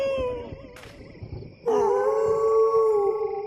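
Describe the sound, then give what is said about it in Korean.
Animals howl in long, steady, sustained tones, with a fainter howl at the start and a louder one breaking in partway through and holding to the end. “어? 내가 노래만 하면 울부짖네 혹시 쟤들 내가 자기들 대장인 줄 아나?”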